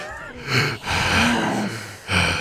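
A person imitates a hunched, troll-like creature with heavy, exaggerated breathing: a few loud, rasping, partly voiced breaths in slow succession.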